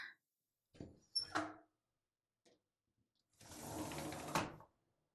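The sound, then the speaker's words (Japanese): A window being opened on a cold day, very faint: a few soft clunks and rattles, then a sustained scraping slide lasting over a second before it stops. “寒いところ申し訳ないけど、窓開けるわよ。”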